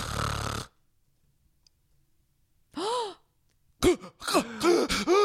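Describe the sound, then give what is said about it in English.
A person imitates the loud snoring of someone with sleep apnea: a harsh, rasping snore, then about two seconds of silence, then a breathy gasp and a run of short gasping, sighing vocal bursts. “this is literally what it would sound like when he's sleeping. He would snore really bad.”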